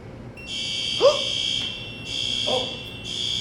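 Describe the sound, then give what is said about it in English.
A building fire alarm sounds after being pulled: a loud, high electronic tone that pulses on and off in a few bursts, with brief voice sounds underneath. “this is the sound of me pulling the fire alarm for our entire building”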